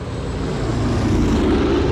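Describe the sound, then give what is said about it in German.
Heavy, steady roar of a DC-4 propeller airliner landing at Rhein-Main airport, a loud, even, low engine drone with no breaks. “Die DC-4 war gerade auf dem Rhein-Main-Flughafen gelandet”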